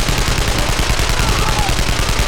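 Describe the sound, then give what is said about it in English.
Automatic machine-gun fire from shoulder-mounted guns on a robot rattles out in a loud, continuous stream of rapid shots that never lets up. “shoulder guns spit out streams of automatic fire, knocking bodies off the temple's columns”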